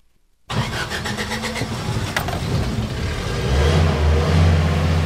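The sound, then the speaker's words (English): A beat-up car's engine kicks in abruptly after a moment of quiet, then runs steadily as the vehicle drives on dirt roads across the Lake Titicaca Basin in Peru, its low rumble growing heavier toward the end. “Instead, we're driving on dirt roads across the Lake Titicaca Basin where Peru meets”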